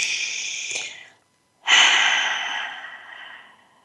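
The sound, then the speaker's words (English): A deep breath taken just before opening the eyes: a long, airy inhale, a short pause, then a louder, longer exhale that slowly fades, with no talking. “take another deep breath and go ahead and open your eyes.”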